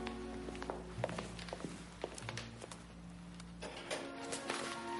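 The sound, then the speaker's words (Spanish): Footsteps of a woman pacing nervously in her bedroom, soft, irregular steps and light taps on the floor that stay faint throughout. “En su dormitorio, Juana camina nerviosa.”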